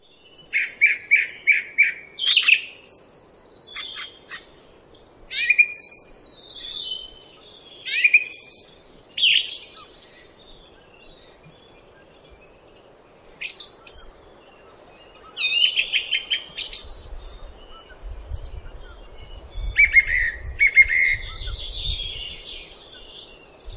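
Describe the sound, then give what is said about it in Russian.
Song thrush singing: a run of short, bright whistled phrases, each repeated a few times in quick succession, separated by brief pauses, clear and fairly loud with no voices. “Певчий дрозд.”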